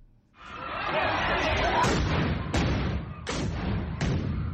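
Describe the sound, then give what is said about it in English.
Stun grenades fired by police at protesters destroying municipal property in Tshwane: about four sharp, loud bangs, roughly evenly spaced, cutting through a continuous roar of noise. “Police fire stun grenades at people destroying municipal property in the city of Tshwane.”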